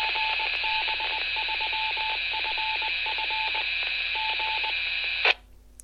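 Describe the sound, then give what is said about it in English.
Morse code identification tones from an amateur radio repeater: steady, mid-pitched beeps keyed in dot-and-dash groups over constant radio hiss, ending in a brief burst of noise. “that was the repeater, GB3FF, that you were listening to there, the ident, the Morse ident, which they transmit every so often”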